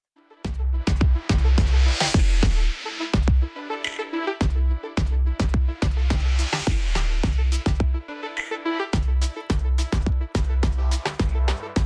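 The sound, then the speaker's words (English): An AI-generated fusion of reggaeton and electronic dance music with a spacey, otherworldly sound: a loud, dense track driven by a steady pulsing kick and bass beat under bright synth layers, with no voices. “This is called a fusion of reggaeton and electronic dance music with a spacey, otherworldly sound.”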